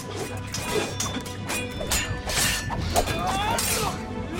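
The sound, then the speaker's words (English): Sword blades clash in a fight: a busy run of sharp metallic strikes and scrapes, many hits in quick, irregular succession with bright ringing tails and a few swishes between them. “Together, you and Silent Wolf block a blade. They sweep blades away and spin.”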